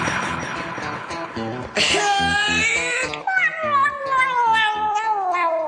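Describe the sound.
A cat meows and yowls over a steady rhythmic musical beat, letting out two long, drawn-out cries, the second sliding slowly downward in pitch.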